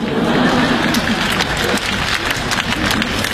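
Audience applause at a live stage comedy performance, dense continuous clapping that stays loud and steady throughout, blended with general crowd noise.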